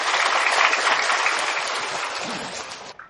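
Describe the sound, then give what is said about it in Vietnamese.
About 350 students applaud together at a gathering. The clapping is dense and steady, grows gradually softer, and stops near the end. “Như vậy là vỗ tay nhỏ hơn 100 học sinh mù. 100 học sinh mù vỗ tay lớn hơn 300 bạn đang ngồi ở đây,”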